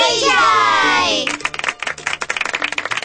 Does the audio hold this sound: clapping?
yes